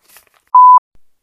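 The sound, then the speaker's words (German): A phone's message notification sounds as a single clean, steady, mid-pitched beep lasting about a quarter second, heard almost alone with only faint soft noises around it. “Ich habe gerade eine Nachricht bekommen. Das ist doof. Ich weiß nicht, ob man es gehört hat”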